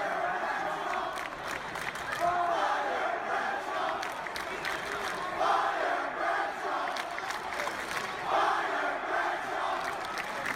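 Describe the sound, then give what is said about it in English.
An arena crowd at TD Garden chants "Fire Bradshaw" during a SmackDown Live wrestling event. Many voices repeat the same chant in a steady cycle, fairly faint and continuous. “Ladies and gentlemen, what you are hearing is a chant coming from the TD Garden”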